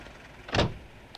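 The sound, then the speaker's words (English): A taxi cab speeding around a corner and stopping: a single brief, broad whoosh of the car that swells and fades quickly, with a faint small click shortly after. “The cab speeds around a corner and stops in front of a vast, dilapidated building.”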